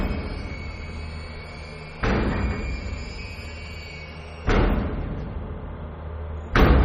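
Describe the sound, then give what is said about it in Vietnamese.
Kicks against the back door of a house late at night: three heavy, separate thuds spaced a couple of seconds apart over a steady low hum. “nghe văng vẳng tiếng ai đó đang đạp vào cái cánh cửa sau nhà”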